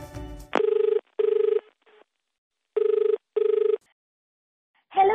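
A telephone rings for an incoming call to a radio show. It gives four loud electronic ring bursts in two pairs, with a silent gap between the pairs.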